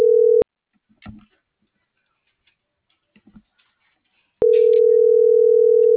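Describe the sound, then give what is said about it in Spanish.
Ringback tone of an unanswered phone call: a steady electronic ringing tone cuts off, a few seconds of near silence with faint small noises follow, then the same tone resumes and holds. “No contesta. Ya le eché las tres llamadas y esta es la cuarta. O sea, no me manda buzón directo.”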